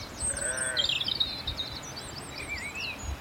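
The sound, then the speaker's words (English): Grazing sheep in a steep, rushy meadow on Sugar Loaf mountain give faint bleats early on, over a quiet outdoor hush with thin, high bird chirps scattered throughout. “Some sheep grazed, steep, rushy meadow.”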